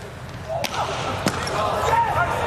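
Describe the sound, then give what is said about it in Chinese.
Sharp ball strikes from a volleyball jump serve, two brief hard thuds standing out over a steady wash of crowd noise, with voices in the background. “跳起三号地面发球”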